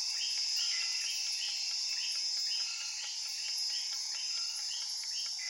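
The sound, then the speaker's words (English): Crickets and other insects fill a rainforest sleep-sounds recording with a steady, high buzzing drone and rapid repeated chirps that pulse evenly throughout, loud and constant with no talking. “play me Rainforest Sleep Sounds. Sure. Playing Rainforest Sleep Sounds for 58 minutes.”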